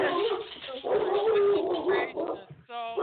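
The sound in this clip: A dog barks and whimpers in high, whining, yelping tones that rise and fall in pitch, loud and nearly continuous, with a brief dip near the end before a final clear whine.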